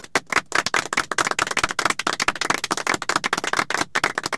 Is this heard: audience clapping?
yes

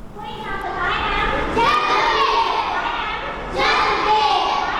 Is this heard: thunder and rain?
no

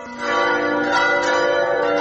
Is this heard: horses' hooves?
no

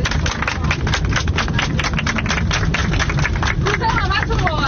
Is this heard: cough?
no

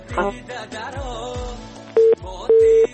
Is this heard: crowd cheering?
no

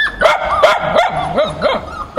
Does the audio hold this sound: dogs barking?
yes

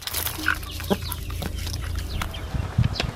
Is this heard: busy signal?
no

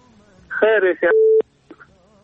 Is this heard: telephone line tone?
yes

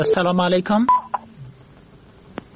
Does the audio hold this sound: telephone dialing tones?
yes

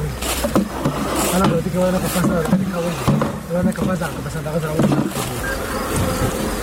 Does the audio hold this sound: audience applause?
no

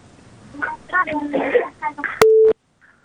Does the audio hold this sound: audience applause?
no

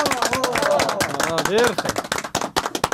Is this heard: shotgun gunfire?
no

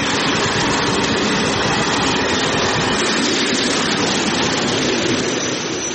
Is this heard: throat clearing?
no

